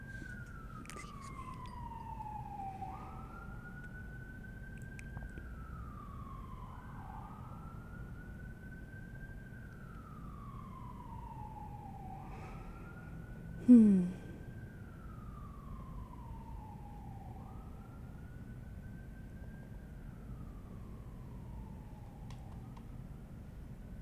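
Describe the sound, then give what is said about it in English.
An emergency vehicle siren wails in a slow repeating cycle, each sweep rising quickly and falling gradually. It is fairly faint over a steady low rumble, with one brief thump partway through. “Apologies for the sirens.”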